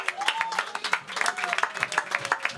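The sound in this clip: An audience applauds at a live stage show with irregular, crisp handclaps, and a person talks over the clapping.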